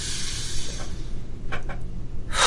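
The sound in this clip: A group of people breathing in deeply during a guided breathing exercise, an airy hiss that is loud at first and then thins, followed by a few short breathy bursts.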